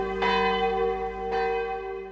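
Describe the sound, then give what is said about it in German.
Church bells ring out with two clear strikes about a second apart, each leaving a long, steady tonal hum that fades slowly, with no voices. “3 Minuten, bis die Glocken zu Ende sind, in der Hoffnung, dass sie dann auch aufhören.”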